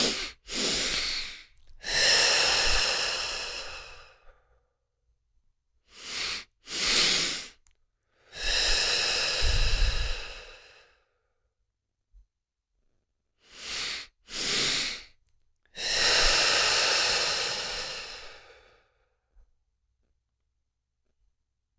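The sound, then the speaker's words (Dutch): Breathing exercise heard three times: two quick breaths in through the nose, the second slightly longer, then a long, airy exhale out through the mouth. Each cycle is separated by silence. “We gaan zo meteen 2 keer inademen door de neus. De tweede inademing ietsjes langer, dus ik zal hem voordoen. En dan blaas je uit door je mond.”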